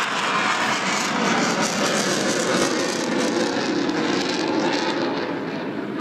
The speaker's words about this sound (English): He flew up from Tyndall today, and as you can see, he's got his wheels down. He's waggling his wings.